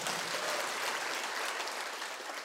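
Applause from a church audience after a Sunday morning sermon: an even, continuous wash of clapping hands that holds steady for about two and a half seconds and eases slightly at the end.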